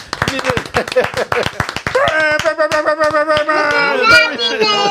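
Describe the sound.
Audience applause and cheering: a flurry of sharp hand claps, then whooping, shouting voices over continued clapping.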